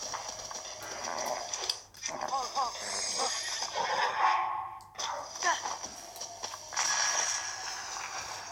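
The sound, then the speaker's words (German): A horse whinnying in a video game: a few short neighs come over a steady bed of game sounds while a person keeps talking. “gucke jetzt, wo mein Pferd ist. Da. Steige auf.”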